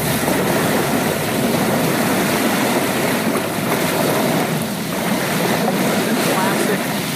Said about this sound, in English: Classic ocean waves hitting the sand, hitting rocks, hitting the beach.